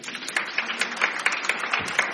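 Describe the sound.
Audience applause welcoming a guest at an arts event, fairly faint and thin, with individual claps coming through in a loose, regular patter.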